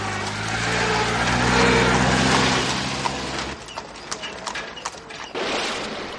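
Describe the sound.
Horse hooves of a mounted guard parading away in front of a plaza. A dense, steady rumble fills the first half, then scattered clip-clop hoofbeats come through in the later part.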